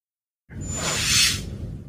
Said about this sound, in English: A soldier fires on Worf and only just misses.